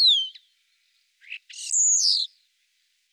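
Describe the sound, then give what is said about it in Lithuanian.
Whistling from a common starling: a few short, high, clear whistled notes separated by pauses, followed by a longer warbling whistled phrase, heard alone and fairly faint. “O čia varnėnas švilpauja.”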